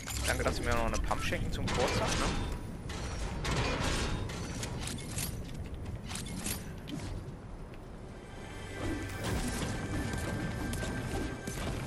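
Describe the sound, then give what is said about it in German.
Creaking, mechanical clatter of a gate being opened in the Fortnite video game, set among loud, dense game effects with repeated crashes and thuds that continue throughout. “Ich habe die Tor aufgemacht, dann gehe ich rein”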